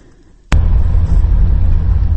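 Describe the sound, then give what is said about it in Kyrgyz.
A UAZ vehicle travels a rough rural road between remote villages. After a quiet half-second, a loud, low engine rumble and road noise start abruptly and stay steady and dense. “Биз азыр Алайкуунун алыскы Көгарт айылынан райондун борбору Карагулжанын көздөй УАЗ автоунаасына кетип баратабыз.”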